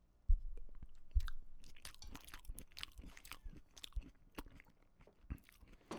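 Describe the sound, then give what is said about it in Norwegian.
Someone chewing sauerkraut: two sharper bites at the start, then many soft, wet crunches in a loose rhythm, faint throughout with no talking. “Men nå skal jeg spise surkålen. Og så, ja, hør nå. Nå spiser jeg surkål.”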